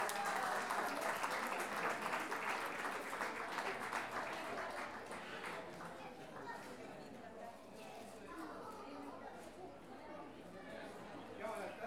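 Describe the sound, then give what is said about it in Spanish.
Audience applause at a national payador competition fills the hall as two performers take the stage. Dense, continuous clapping starts loud and eases slightly, with crowd chatter mixed in. “Entonces, un aplauso para Carlos Sotomayor y Cecilia Astorga.”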